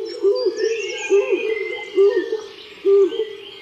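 Rhythmic hooting of a stock dove from a recording: four low, even coos spaced about a second apart, with faint chirps of other birds behind them.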